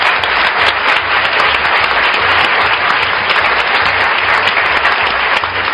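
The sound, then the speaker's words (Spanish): Audience applause welcomes a guest actor on a comedy panel show: a dense, steady wash of many hands clapping without pause for the whole stretch, with no voices over it. “Un aplauso para él.”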